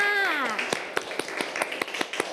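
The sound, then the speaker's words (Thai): Evenly spaced claps, about nine in a steady rhythm, honor two children after a lesson. They follow a woman's voice heard briefly at the start. “ปรบมือให้กับทั้งสองคนค่ะ”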